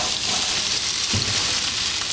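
Zucchini and peppers sautéing in a pan for lunch: a steady, crackling sizzle that hisses on without pause, with no voices.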